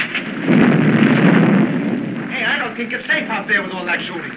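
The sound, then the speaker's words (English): Battlefield gunfire and explosions: a loud, dense rumbling blast lasting about a second, then a busier stretch of lighter, irregular bursts. “I don't think it's safe out there with all that shooting.”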